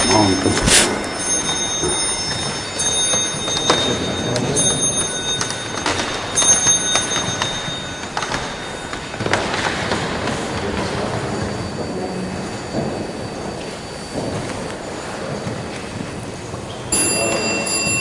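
Several clocks chime the hour at eleven, out of step with one another, so bell-like tones overlap and follow each other across the whole stretch at a steady, moderately loud level.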